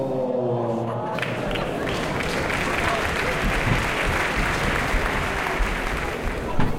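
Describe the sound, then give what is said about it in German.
A noisy crowd applauds after a concert by a choir of blind and visually impaired singers, with dense, steady clapping and crowd noise throughout and a voice heard briefly at the start. “Wie du hörst, ist hier ein riesen Durcheinander.”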